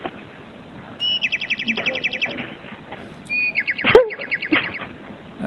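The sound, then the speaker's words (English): Small birds chirping in two bursts of rapid, repeated high-pitched tweets, with a lower squeaky call between them over steady background noise. “there's birds.”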